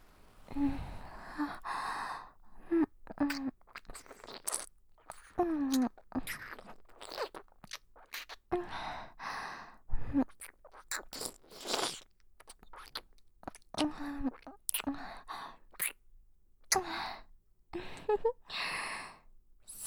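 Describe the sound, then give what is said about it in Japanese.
Wet ear-licking sounds for ASMR, aimed at the left ear: many close, moist smacks, slurps and soft breaths in an irregular rhythm, with no talking. “耳なめからしよっか。まずは左耳。いただきまーす。”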